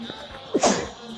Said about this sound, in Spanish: Perdón, que me escapó un estornudo, perdón.